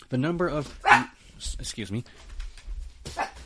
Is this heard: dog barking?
yes